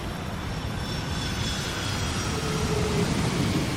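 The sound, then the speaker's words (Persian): Airplane flying overhead: a steady, broad engine roar that holds level and continuous from start to finish with no breaks. “به نظرت اون هواپیما از کجا میاد؟”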